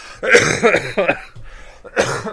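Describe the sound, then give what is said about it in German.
Several short, harsh coughs from a person, loud and rough with a voiced, throaty edge, coming in quick bursts with a brief gap before the last. “Muss ich husten und mal lachen.”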